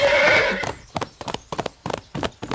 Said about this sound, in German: Denkste, Amadeus hat eine Spitzenkondition. Los, Galopp, um die Wette. Wie immer? Wie immer, bis zum Steinbruch.